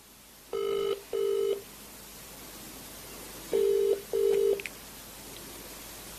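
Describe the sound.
Ringback of an outgoing telephone call on speakerphone: four steady electronic ring tones in two pairs, each pair of short buzzing tones followed by a pause, over faint line hiss.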